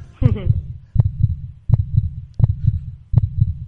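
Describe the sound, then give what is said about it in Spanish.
A physical arrhythmic metronome on display at a university hospital thumps out low, heartbeat-like beats in pairs. Five double thuds come at a fairly even pace, each a soft low pulse with a sharper click. “culminó con la fabricación del primer metrónomo arrítmico de la historia, que es una pieza física que se puede ver en el Hospital Universitario de Torrejón”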